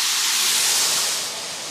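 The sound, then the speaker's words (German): Onions sizzle as they fry in a pan, making a steady, bright hiss that holds level, then eases slightly toward the end. “Die Zwiebeln braten wir jetzt an, bis sie so leicht glasig sind und geben dann das Fleisch dazu.”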